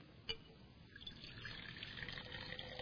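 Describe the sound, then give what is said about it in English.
Water poured into a container gives a faint, steady rush of trickling and splashing that builds slightly and continues through the whole clip, with no voices. “So this water, which I really can't have any control over, when I pour it in,”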